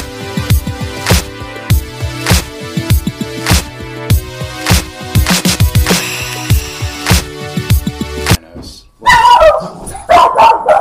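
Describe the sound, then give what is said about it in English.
A pet dog barks and yips in a few short, sharp bursts. “For those who don't know, that's my dog, Link.”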